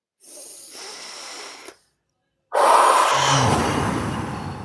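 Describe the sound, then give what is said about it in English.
A deep breath drawn in through the nose, a short silence, then a louder, longer breath pushed out through the mouth, both airy and hissing with no voices. “we're just going to take a deep breath in through the nose and out through the mouth”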